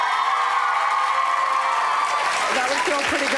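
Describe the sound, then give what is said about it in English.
A large concert crowd screams and cheers for a pop singer in a dense, continuous roar that holds at steady loudness while a voice speaks briefly over it. “But then when I hear the crowd screaming, I just get so happy. It's like the most amazing sound.”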